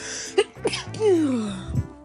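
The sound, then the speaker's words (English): A person sneezes. Sharp breathy bursts lead into a voiced sound that slides downward in pitch, and a short rough exhale follows. “I'm gonna sneeze”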